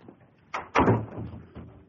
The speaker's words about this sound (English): No, come in. Shut the door.